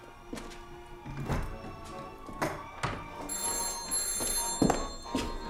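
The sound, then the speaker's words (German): A telephone rings in an apartment during a radio drama. Its bell tone is heard over a murky background with a few dull thumps, and the ringing grows brighter partway through. No one speaks. “Das Telefon, Robert. Ja, ich höre es.”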